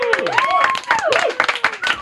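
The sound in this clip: Audience applause for a band on stage announcing a record deal, scattered clapping mixed with cheering and talking voices.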